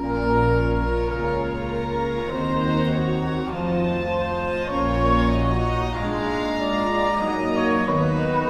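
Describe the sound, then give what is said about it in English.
Strings play three independent lines in counterpoint, two violin parts and a viola, in a Kyrie movement of a mass. Sustained, overlapping notes move at a slow, steady pace at moderate loudness, with no voices. “So what you just heard there was just three completely independent parts in the strings, violin one, violin two, and viola, all playing their own stuff.”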